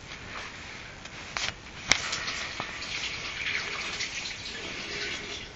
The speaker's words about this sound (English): I'm gonna wash my hands.